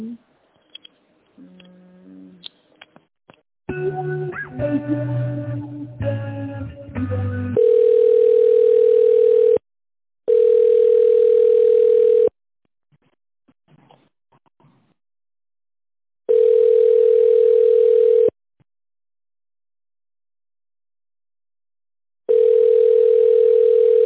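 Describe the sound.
Once a voice finishes speaking, a telephone line gives a steady single-pitched tone while the call is transferred. It comes in long pulses about two seconds each, repeating with pauses of uneven length.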